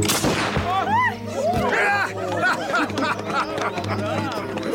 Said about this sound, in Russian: Стреляет второй гусар.